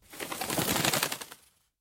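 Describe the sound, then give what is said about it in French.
Wings of a dove flapping as it is released from a window and flies off, a rapid run of soft, papery fluttering beats lasting just over a second before fading away. “Au petit matin, par la fenêtre, Noé lâche une colombe. Vole, ma colombe!”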